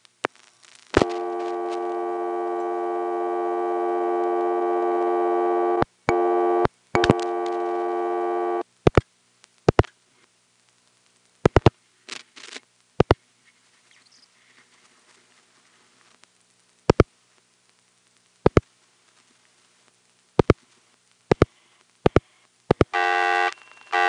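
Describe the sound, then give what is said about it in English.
Telephone busy tone on a 258 exchange line, dialed through a 119 circuit in Sanford: a steady, buzzy harmonic tone holds for several seconds, then sharp isolated clicks follow, and a brief burst of the tone returns at the end. “Then I'm going to turn around and call that number, and we'll hear the busy signal from the 258 tributary.”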